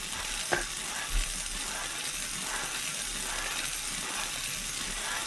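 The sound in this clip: A lottery drum (bombo) spins with its balls tumbling inside, making a steady, dense, hissing rattle throughout. Two soft knocks come near the start.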